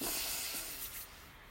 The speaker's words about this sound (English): So, deep breath in, hands on your body.